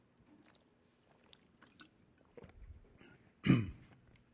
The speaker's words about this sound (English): Excuse me. I need a drink here.